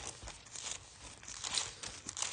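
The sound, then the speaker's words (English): Bible pages being turned by hand while looking up scripture, soft papery rustles and crinkles in a few quiet bursts spread across the moment, with no voice. “You can hear me turning pages because I love to do these little sword drills myself and run through the scripture”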